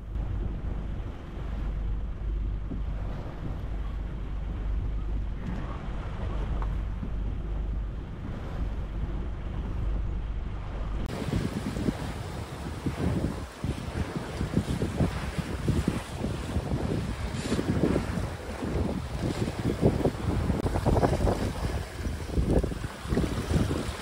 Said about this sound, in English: the wind finally started to arrive